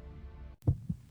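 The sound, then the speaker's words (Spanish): A child's fast heartbeat: a low, soft hum, then one muffled lub-dub pair of deep thumps, the first beat stronger than the second. “Este es el sonido de un corazón acelerado. Está latiendo un poco más rápido porque pertenece a un niño,”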